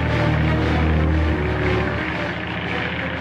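A propeller aircraft comes in to land, its engine a loud, steady droning roar with a low tonal hum that drops slightly partway through and runs throughout.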